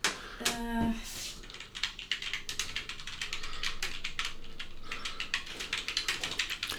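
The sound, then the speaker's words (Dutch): Faint, rapid, irregular clicking of keys on a computer keyboard in a radio studio, a continuous quiet patter of typing with no clear voices. “Het geluid dat je hoort waren het toetsenbord van de computer in de studio van Radio Centraal bij de Wolkenbreers.”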